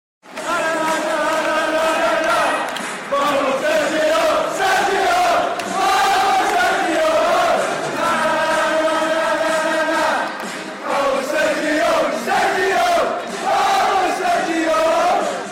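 Hearts football fans chant their own words to a disco tune at a match against Celtic at Tynecastle. Loud, sustained massed singing with a clear melody carries through several short pauses between phrases.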